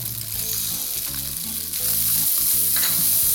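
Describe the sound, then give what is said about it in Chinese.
Green peppers stir-fry over high heat with a loud, continuous sizzle that grows stronger partway through, broken by soft rhythmic stirring scrapes. “这时候我们要炒青椒。 好的， 下青椒，一样都大火哦。”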